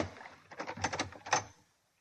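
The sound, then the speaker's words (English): A flat's door being opened: a faint, brief cluster of clicks and rattles lasting about a second, then quiet. “Well, here we are. We'll open the door.”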